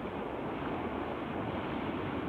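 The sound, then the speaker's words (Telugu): Strong wind and sea waves surround a rocking boat out on the sea, a steady, loud rushing roar with no voices over it. “పడవలో ఉన్నా అందుకే గాలికి ఊగిపోతుంది. అంత చీకటిగా ఉంది. పడవ ఊగుతున్నది నది మీదేనా? నది కాదు, ఇది సముద్రమే.”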